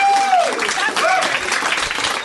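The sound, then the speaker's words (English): Comedy club audience applauds, a loud, dense clatter of clapping that sustains throughout, with a few higher whoops or whistles near the start. “I'm able to accept your applause.”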